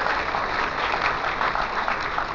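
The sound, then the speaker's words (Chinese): Warm audience applause welcoming performers at a Peking opera event, many hands clapping in a dense, continuous stream at steady loudness with no voices over it. “中国戏曲学院程派高材生殷婵娟，中国戏曲学院附中优秀学生闵新宇，让我们同样用热烈的掌声欢迎他们的到来。”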